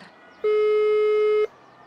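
A single steady electronic tone lasting about one second, the ringback signal of a phone or video call connecting, sounding alone over faint background hiss.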